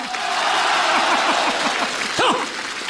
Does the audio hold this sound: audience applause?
yes